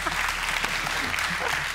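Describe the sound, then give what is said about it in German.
Applause for a contestant on a card-based game show, a short, fairly faint burst of dense clapping that stays at a steady level. “Ein Applaus für das Karnickel.”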